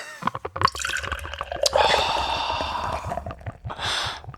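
Beer pours from an unwieldy bottle, first a few brief clicks and knocks, then a continuous bubbling, gurgling fill of liquid that carries on with small surges to the end.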